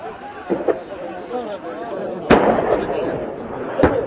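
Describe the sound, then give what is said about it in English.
Gunfire from small arms and heavy weapons in fighting involving Kurdish fighters near the Turkish-Syrian border: a few sharp, loud cracks and bursts spaced irregularly, with voices talking throughout. “The noise of small arms and heavy weapons cuts through the sky.”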